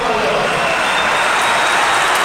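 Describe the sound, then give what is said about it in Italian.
A basketball crowd in the Virtus Arena applauds a player leaving the court after an ejection, a continuous dense roar of clapping and crowd noise under a commentator's voice. “deve lasciare il campo Diarra, applaudito comunque dalla Virtus Arena”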